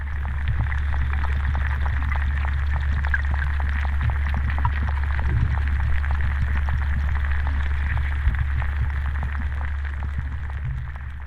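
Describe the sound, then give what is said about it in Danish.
Amplified sound of lake water: a continuous, heavy low rumbling drone with a faint hissing band above and scattered soft ticks and trickles, holding steady and fairly loud throughout. “Og man kan sige sådan lidt karikeret, at det er sådan vandets stemme eller vandets lyd, der sådan bliver amplificeret.”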